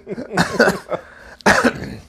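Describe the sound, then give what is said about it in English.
Throat clearing comes as a few rough, cough-like bursts, fairly loud, with a short pause before a final, longer burst. “I just want to go ahead, clear my throat”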